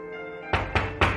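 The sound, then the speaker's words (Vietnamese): Three dull knocks on a door in quick succession, firm thuds over a sustained, steady musical tone. “Tạ Viêm vẫn nhẫn nại, tiếp tục gõ cửa, giọng của hắn thêm phần ôn hòa.”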